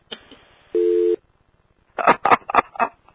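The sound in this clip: A single steady electronic telephone tone lasting under half a second, preceded by a faint brief blip and followed by a few short noisy bursts.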